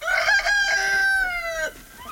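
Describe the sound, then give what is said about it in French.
A rooster crows among a small flock of about twenty hens kept by a couple on a rural property in the Ardennes, France: one long, loud, harmonic crow that holds steady, then drops sharply at the end, with no talk. “Anne Abraham vient nourrir sa 20aine de poules, mais aujourd'hui, il n'est plus question de manger leurs œufs”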